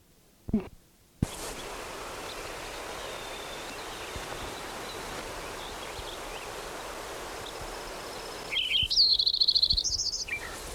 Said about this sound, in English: Lincoln Sparrow number 10.